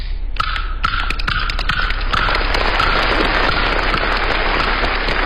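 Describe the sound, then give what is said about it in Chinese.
Kuaiban bamboo clappers struck in quick, crisp, irregular clacks during an on-stage folk performance, layered over a dense, steady wash of audience applause, with no speech. “最受欢迎的是你那快板”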